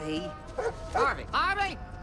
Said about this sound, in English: They're barking at the moon!